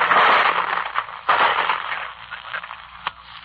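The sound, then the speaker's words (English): Rifle gunfire and bullets pop through a dense hiss of radio-like static, with a couple of sharp cracks standing out against the steady noise. “Listen. Those, my friends, are bullets.”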